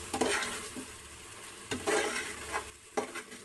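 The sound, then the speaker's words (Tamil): Stirring and sautéing of shallots, garlic and eggplant with turmeric, chili and coriander powders in a pan: a few scraping stirs over a steady soft sizzle, with no voices. “சின்ன வெங்காயம், பூண்டு, கத்திரிக்காவை சேர்த்து நல்லா வதக்கி விட்டுக்கோங்க. இது நல்லா வதங்கி வந்ததுக்கு அப்புறமா மஞ்சத்தூள், மிளகாய்த்தூள், தனியத்தூளை சேர்த்து கிளறி விட்டுக்கோங்க.”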